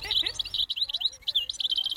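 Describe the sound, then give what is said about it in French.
A European goldfinch sings a quick, high, tinkling run of twittering chirps and trills, bright and rapid over a quiet background. “Alors, c'est quoi cet oiseau? Cet oiseau est chardonneret élégant.”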